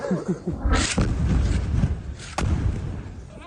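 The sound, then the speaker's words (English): An Israeli airstrike hits a desalination plant in the Sheikh Radwan neighborhood of Gaza City. A sudden heavy boom rolls into a long, deep rumble, broken later by one more sharp crack. “This is the moment the attack targeted a desalination plant in the Sheikh Radwan neighborhood. A mosque was also hit.”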